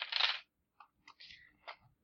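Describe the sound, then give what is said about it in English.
Five dice are thrown during a tabletop roleplaying game. There is one loud clattering rattle, then a few shorter clicks and rolls as they settle. “All right, I will throw 5 dice into it.”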